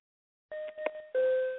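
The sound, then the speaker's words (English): An airplane seatbelt sign chime: two soft electronic tones, a higher note and then a slightly lower one, each ringing briefly after silence. “But the seatbelt sound is when you're on an airplane. When you hear that sound, it means to take your seat and to buckle up”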